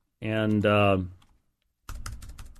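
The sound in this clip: Typing on a computer keyboard: a rapid run of light clicking keystrokes follows a short spoken phrase and a moment of quiet. The keystrokes are fairly soft.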